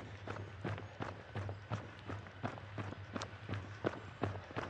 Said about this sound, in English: I'm in zone 2 now, comfortably jogging along with another small climb up ahead